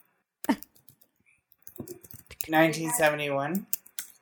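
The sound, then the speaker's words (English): Fast typing on a computer keyboard, a burst of sharp, rapid clacks and clicks that continues sparsely while a person starts talking over it. “Here, I'm going to savagely type.”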